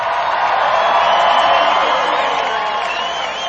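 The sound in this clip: An audience cheers and whoops in a steady, loud wall of crowd noise as a concert welcomes Jimmy Buffett and the Coral Reefers with a Hawaiian aloha greeting.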